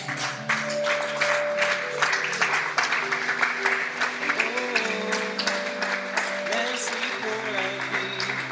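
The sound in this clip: A church audience applauds and cheers: dense, steady clapping runs throughout, mixed with raised voices.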